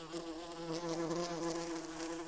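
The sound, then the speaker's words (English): A hornet scout leaving its nest buzzes in flight, a steady droning whine that wavers slightly. It is faint and heard alone, with no other sounds. “And so, first, a hornet scout leaves the nest to find larvae.”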